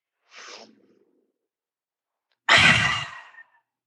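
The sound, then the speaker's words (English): Breath drawn softly in through the nose, then after a pause forced out hard through the mouth in one loud, breathy rush of about a second, with quiet in between. “Breathing in through the nose, forced out through the mouth.”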